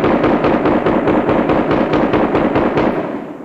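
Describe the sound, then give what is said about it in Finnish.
Rapid gunshots from long-barrelled six-shooter revolvers in a saloon: a fast, evenly spaced run of many sharp, loud cracks that fades slightly toward the end. “12 laukausta kajahti niin nopeasti, että kukaan saluunassa ei saattanut erottaa muuta kuin yhden.”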